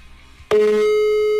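An outgoing mobile phone call rings through: after a short quiet moment, one loud, steady ringback tone starts abruptly and holds to the end.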